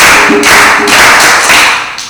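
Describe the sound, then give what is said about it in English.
A class of pupils claps together for a classmate in a classroom. The clapping is loud and dense, swelling in regular surges about every half second. “So now you clap for him. 1, 2, 3, go. Clap for him. 1, 2, 3, go.”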